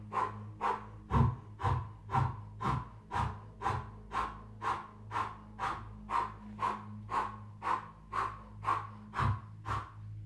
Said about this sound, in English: You're going to pump the navel through the O-shaped mouth. Cleansing every cell with a powerful breath.